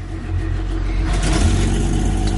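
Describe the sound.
An SUV's engine runs just as it is started, a loud, continuous low rumble that swells slightly and holds steady.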